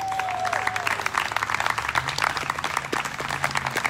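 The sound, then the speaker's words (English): An audience applauds college graduates, many hands clapping in a continuous, lively patter of even loudness that carries through the whole stretch. “Now on to our college grads. How about a little hand for them?”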